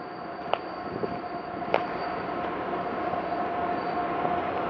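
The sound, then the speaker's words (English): A train passes on a railway track with a steady, loud rumbling rush and a sustained tone above it, broken by a couple of sharp clicks. “let me get off this train track here because it's getting loud. Woo! Listen to that horn!”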